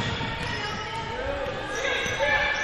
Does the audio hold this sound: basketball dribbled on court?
yes